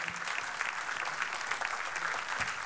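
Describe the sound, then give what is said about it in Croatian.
An audience claps steadily for alto saxophone and drum players at a live band performance, dense continuous applause from many hands with no break. “Jedan velik aplauz Miha Đerek na alt saksofonu i Bruno Domiter na bubnjevima.”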